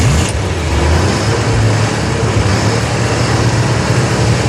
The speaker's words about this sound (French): C'est le bruit d'une voiture, vous avez compris. Donc c'est pas une mobylette, c'est pas une moto, c'est une voiture.